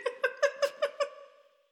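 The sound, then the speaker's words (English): A cat, newly adopted and named Victoria, gives about six short, high, tonal mews in quick, even succession, then falls quiet. “I really thought that was going to be the old cat.”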